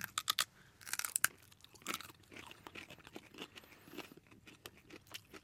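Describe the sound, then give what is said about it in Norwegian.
Crunchy bites of raw parsnip being chewed: many crisp, crackling crunches, loudest and sharpest in the first second, then a steadier run of softer chewing crackles. “Nå står vi altså og tar hver vår bit av pasinakken”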